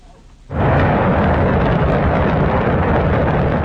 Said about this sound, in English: That's the sound of China's Shenzhou 23 rocket blasting off on Sunday from the Jingguan Launch Center in Inner Mongolia.